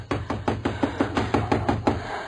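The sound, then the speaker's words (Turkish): Insistent knocking at a house door at night, about ten hard, evenly spaced blows in quick succession within two seconds, dull thuds heard alone. “Bari kimdir bu saatte kapıyı kıracakmış gibi çalan beya?”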